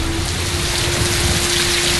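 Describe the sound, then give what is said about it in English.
Heavy rain pours during the rainy season around a house in a valley. It is a loud, dense, unbroken hiss of drops that stays steady from start to finish, with no voices. “Oh, it's raining so heavily. It really is the rainy season.”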